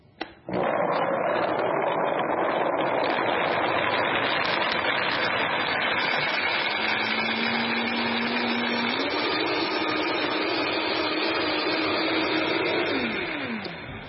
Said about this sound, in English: I'm using a Vitamixer, and this is the king of blenders. So here we go.